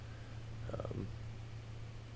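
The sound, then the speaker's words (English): A cat makes a brief, faint, rattling purr-like snort, a short burst of a few pulses over a steady low hum. “That was a very strange noise. Oh, I'm sorry. I think that was my cat.”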